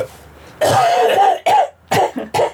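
Harsh coughing fit from a person who jokes about smoking: one long rasping cough followed by three shorter, sharp coughs in quick succession, loud and close.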